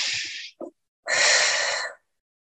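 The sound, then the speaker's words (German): Deep breathing: a long, airy breath in and a breath out through the mouth, both breathy and fairly loud, separated by a short pause with a small catch of breath. No voice is heard. “Atmen tun wir sowieso viel zu oberflächlich, also atme tief ein”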